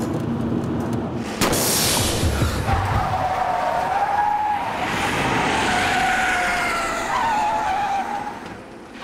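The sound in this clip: A car skidding on a burst tyre: a sudden loud onset, then a long, wavering tyre squeal over engine noise that holds for several seconds before fading at the end.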